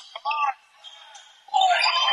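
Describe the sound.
Basketball dribbled on a court during an Eagles game, a player bringing the ball back out of the corner: a few bounces mixed with other sharp court noises, closing in a louder, denser burst.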